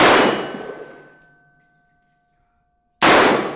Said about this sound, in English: Now, the instructor fired that test round, and the sound is deafening.